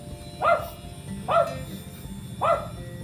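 A dog barks three times at an even pace, each bark short and sharp, rising out of a low steady background hum.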